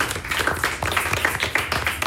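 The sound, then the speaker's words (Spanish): Applause from an audience at a bagpipe-school event, cheering on a supporting foundation: brisk, crowded clapping with sharp individual hand strikes standing out throughout. “Un aplauso para la Fundación.”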